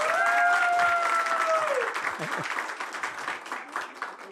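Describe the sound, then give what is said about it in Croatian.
A television show's studio audience applauds. Steady crackling clapping starts under a sustained gliding tone, then carries on alone and thins gradually toward the end. “Dajte jedan veliki aplauz za emisiju večeras.”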